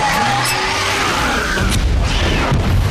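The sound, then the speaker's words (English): A colossal explosion bursts out of a mountain base entrance in a Terminator film, a loud, sustained roaring rumble with a crashing texture that holds steady from start to end. “A colossal explosion bursts out of the mountain entrance, churning up massive clouds of dust.”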